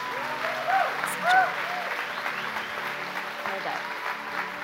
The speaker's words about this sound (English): Can you give these guys a hand, you guys?